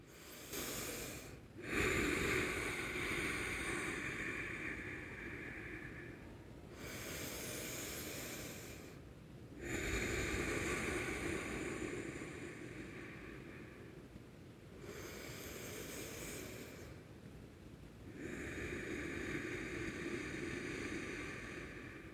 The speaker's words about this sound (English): I thought I would close the show with a few deep breaths just for you and I to do together.